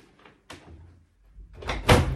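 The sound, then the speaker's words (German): A door opened by its handle on entering a room: faint soft clicks and a small knock early, then a louder thudding swish as the door moves open near the end. “Die Türklinke ist auf der rechten Seite dieser Tür und wir gehen jetzt einfach mal hinein in das Zimmer.”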